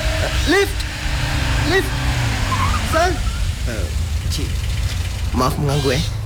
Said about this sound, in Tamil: அங்க பாருங்க ஒரு கார் வருது.